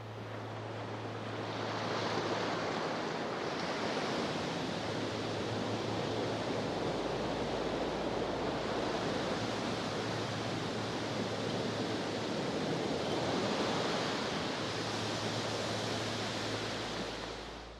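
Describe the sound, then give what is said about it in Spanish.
Sea waves surge and wash in a broad, continuous roar that slowly swells and eases over several long cycles, steady and on its own with no voices. “«Es el mar», exclamó el viento, «donde podrás refrescarte y jugar infinitamente entre las olas.”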